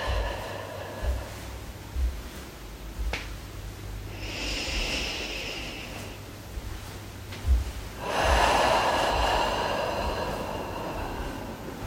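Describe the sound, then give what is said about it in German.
Deep breathing in and out during a guided relaxation gives two long, airy breaths, the second louder and fuller, with quiet pauses around them. “Dazu atmen wir wieder tief ein und aus.”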